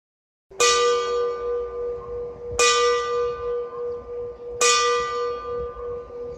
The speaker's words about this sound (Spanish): Apenas acaba de sonar la última campanada en el reloj de la torre